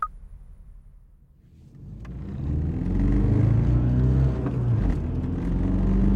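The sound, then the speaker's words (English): A car driving fast: the engine rumble starts low and quiet, then swells into a loud, steady accelerating roar with a whirring tone that holds to the end. “Where are we going? And why are you driving so fast?”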